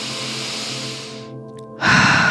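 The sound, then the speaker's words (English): A deep breath taken during a guided breathwork exercise for decision making, set over steady soft tonal music. A long airy stretch of breath fades out, then a louder breathy burst starts near the end. “Deep breath.”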